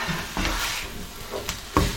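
Food being turned over in a frying pan: a few short scraping stirs over a steady sizzle of hot oil, each stroke a brief rustling burst, with no talk.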